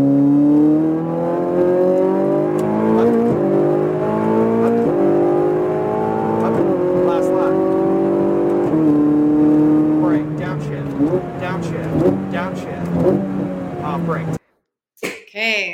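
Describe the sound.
A Ferrari 488 race car accelerates on a racetrack, its loud engine whine climbing in pitch through several gear shifts, then dropping into rougher, lower revs under braking. A voice gives coaching over the engine.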